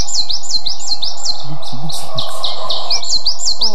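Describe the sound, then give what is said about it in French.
Coal tit song: high, bright two-note phrases repeat quickly in a steady chant, loud and clear throughout, with many repetitions. “La mésange noire, qui adore les conifères, elle.”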